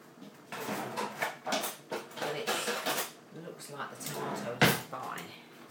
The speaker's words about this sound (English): think I have a tin of tomatoes. Actually, I think this might be tomatoes. So I'm going to open it live on Audio Boo and probably find out that it's custard or something.